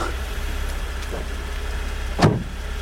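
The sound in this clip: A car engine running at a steady low idle rumble, broken by one brief louder knock near the end, with no talk.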